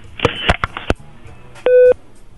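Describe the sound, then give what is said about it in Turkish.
A telephone line tone follows a caller angrily slamming down the receiver. A few sharp clicks and clatters come first, then a single steady electronic beep. “Telefonu adeta kafamızı atarcasına kapattı.”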